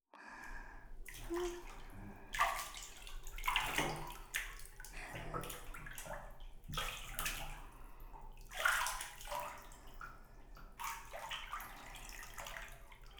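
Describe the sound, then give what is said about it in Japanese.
Warm water is poured from a wooden tub to wet someone's hair, making several soft splashing pours separated by quiet pauses. The sound stays faint throughout. “桶の中にお湯を入れておりますので、髪の毛を濡らしていきますわね。”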